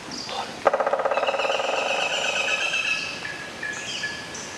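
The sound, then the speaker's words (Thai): A woodpecker drills a hollow into a tree in a rapid burst of many sharp taps lasting about a second. High, steady bird chirping carries on in the background. “เด็กๆคะมาตั้งใจฟังเสียงนกหัวขวานเจาะโพรงไม้กันดีกว่านะคะแล้วก็จดจำไว้เลยค่ะเข้าป่าเมื่อไรถ้าหากว่าได้ยินเสียงนี้มองหานกหัวขวานได้เลยค่ะ”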